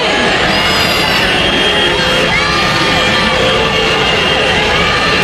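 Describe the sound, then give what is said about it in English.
A loud crowd of protesters outside a state legislature after a new voter map passed, a dense continuous roar of shouting, cheering and whooping voices with no pause. “That's the sound of a crowd of protesters outside the Tennessee state legislature after they passed a new state voter map.”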